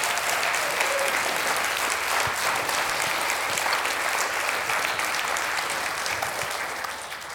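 Audience applause greets a 73-year-old seminary student as she is welcomed to the stage: dense, steady clapping that holds at full strength throughout and eases slightly at the very end.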